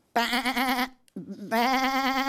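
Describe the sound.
Sheep bleating from a flock standing in a paddock by a tree: two long, loud, quavering bleats with a softer, lower call in the short gap between them.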